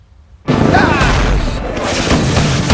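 A bomb explosion in a combat simulator game from The Simpsons bursts in after a near-silent half second, then roars on as a loud, dense, sustained rumble with crackling texture to the end.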